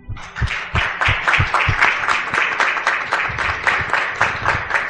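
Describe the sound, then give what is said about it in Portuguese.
A church audience applauding at a baptism, many hands clapping in a steady, loosely rhythmic patter that stays fairly loud and even throughout. “nós vamos saudar a Maria Clara com uma salva de palmas, recebendo-a na Igreja de Jesus.”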